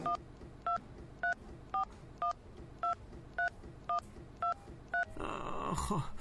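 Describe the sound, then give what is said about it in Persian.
A phone keypad sounds a number being dialed as a row of evenly spaced, clipped two-tone beeps at a steady rhythm. A short burst of louder, rougher noise ends the sequence. “صبر کن شماره شکریه رو بگیرم.”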